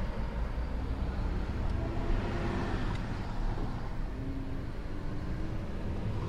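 A car's engine rumbles low and steady as the vehicle pulls off, a constant deep drone with no talk over it.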